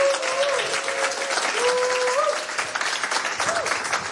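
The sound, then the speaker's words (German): Studio audience applause during a live radio music session, many hands clapping in a full, steady burst that thins into looser, more separate claps near the end. “nochmal einen Applaus bitte hier von euch”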